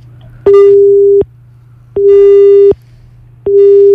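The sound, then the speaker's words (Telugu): A telephone busy tone sounds after a dropped call: three loud, steady beeps of equal length separated by short silences, with a faint low hum underneath. “Okay, call అయితే cut అయింది.”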